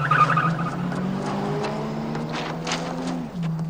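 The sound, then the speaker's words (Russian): A car driving away along a highway, its engine note climbing steadily in pitch as it pulls off, then dropping back near the end, with a hint of tyre squeal over steady road noise. “Дулли садится за руль. Джерри Ли, пошли. Дулли уезжает”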